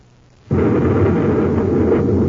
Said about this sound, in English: Smoking rockets, what was that? A space grenade.